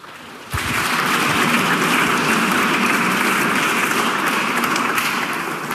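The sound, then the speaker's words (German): An audience applauds to welcome a speaker at a talk, the clapping bursting in abruptly after a brief quieter moment, then continuing dense and loud at an even level to the end. “Bitte ein bisschen Applaus für Markus.”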